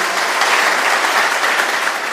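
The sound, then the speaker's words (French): A studio audience on a Ouagadougou television set about national reconciliation applauds a guest. The clapping is loud and continuous, a dense wash of hand claps with no pauses. “Troisième invité de ce plateau, Eric Kinda, porte-parole du mouvement de la société civile Balai Citoyen, que je vous demande d'applaudir.”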